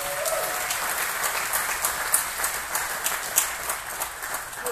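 Applause from an audience welcoming guests at a church service: steady, dense clapping throughout at a moderate level.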